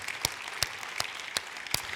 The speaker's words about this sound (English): Welcome to all of you in the sanctuary. Yeah, we can clap for that.